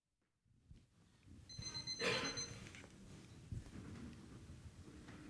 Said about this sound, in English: It's a bit loud. Modern technology. My alarm clock. A wake-up call.